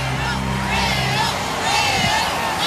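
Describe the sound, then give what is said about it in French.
A crowd of hundreds of thousands of faithful cheers Pope Leo XIV at a giant open-air mass on Place de la Concorde in Paris, a dense, continuous roar of many voices with a voice over it. “Vous les entendez, ces centaines de milliers de fidèles venus acclamer le pape Léon XIV qui a tenu une messe géante place de la Concorde”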